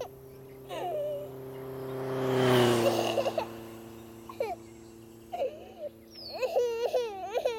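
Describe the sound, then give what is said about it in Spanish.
A young child cries in broken bursts: a louder, drawn-out wail near the middle, then shorter whimpering sobs, and a wavering, rising wail that closes the passage. “Y vuelve a llorar.”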